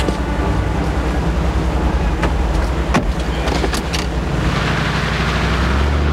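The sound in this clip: Car sound with a steady, broad engine and road rumble throughout, and a few brief sharp clicks partway through.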